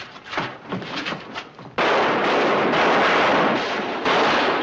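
Gunshots fired down a street by outlaws: after a quieter, rumbling opening, a sudden loud, dense roar of gunfire erupts and keeps going without a break until the end.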